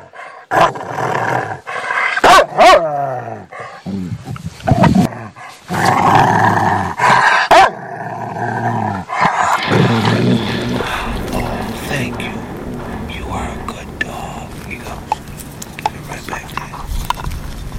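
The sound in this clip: A dog bites and gnaws on a very hard chew. Sharp cracking clicks and scraping crunches come thick at first and settle into steadier grinding, with low rumbling sounds underneath.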